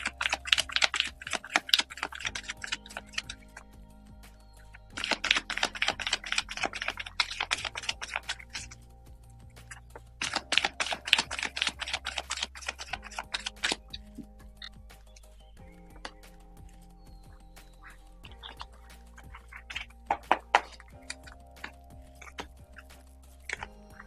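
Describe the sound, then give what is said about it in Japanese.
Playing cards shuffled for a card fortune-telling reading: a few bursts of rapid, crisp riffling clicks, each lasting several seconds, followed by scattered softer flicks and taps, with no talking. “カードをシャッフルいたします。少々お待ちください。”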